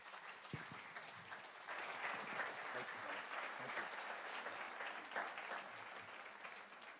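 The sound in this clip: Applause from a church audience welcoming a guest to an installation and ordination service: a dense, even clatter of many hands that swells slightly after a couple of seconds and continues steadily to the end.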